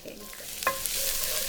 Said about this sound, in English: I really need the oil almost to be sizzling. Mm. So you want the oil to be sort of exactly shimmery hot. Exactly. And we start with garlic.